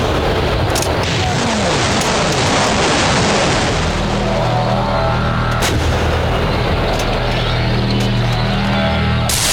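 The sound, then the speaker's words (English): Artillery batteries of 105s and other heavy guns firing together: a dense, continuous, loud rumbling barrage broken by a few sharp, booming blasts. “They're coming at us! All batteries, fire!”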